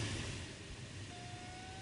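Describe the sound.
A motor glider's engine throttles up as a broad, fairly faint engine roar. A thin tone rises slightly in pitch through the second half.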